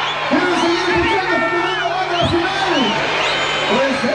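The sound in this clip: A live show audience cheers and chants after the performance, many voices rising and falling together in a loud, continuous, sung chant, with whoops over the crowd noise.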